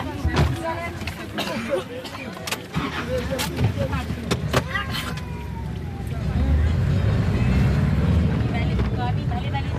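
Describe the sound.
A shared taxi filled with women returning from market sets off: voices and clatter at first, then a louder low engine rumble builds through the second half.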